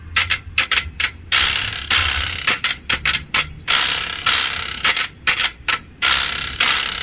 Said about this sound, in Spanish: Así suena la carraca.